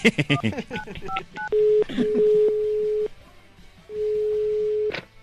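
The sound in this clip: Touch-tone beeps as a phone number is dialed: a quick run of short keypad tones follows brief talk, then longer steady ringing tones sound in separate bursts with short gaps between them.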